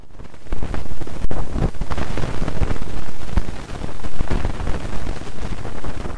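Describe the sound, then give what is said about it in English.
Sonified solar wind particle data from a satellite during quiet conditions gives a steady, rushing, wind-like hiss. Its loudness surges and dips unevenly throughout, with no voices. “one of these satellites that's parked out there in space just gathering up particle data from the solar wind. The first one is where kind of nothing is happening, standard sort of the breeze from the sun”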